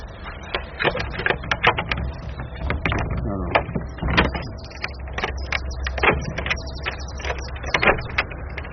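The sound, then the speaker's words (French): An old Gascon door lock, worked open in the reverse direction, gives a string of irregular mechanical clicks, knocks and rattling clunks of varying loudness, some in quick bunches. “Voilà. C'est une vraie serrure gasconne, il faut ouvrir à l'envers.”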